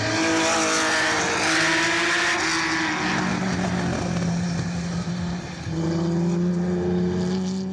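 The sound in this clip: A vintage racing car on a circuit, the one driven there in 1985, roars steadily with a loud layered engine drone. Its pitch shifts in steps as it approaches, and the volume dips briefly near the end.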